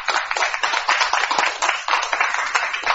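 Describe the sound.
Applause for the Sainte Famille de la Diaspora Catholic choir: dense, steady hand clapping with many overlapping claps that keeps a fairly even loudness from start to finish.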